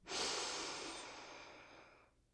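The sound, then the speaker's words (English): A single long, deep breath drawn in during a guided relaxation exercise: a steady, airy rush that swells quickly, then slowly tapers over about two seconds before stopping, with no talking. “Take a deep breath in”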